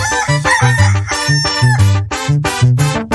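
A rooster crows and clucks loudly in a repeating rhythmic pattern, the calls cut into short bursts over steady low thumping pulses throughout.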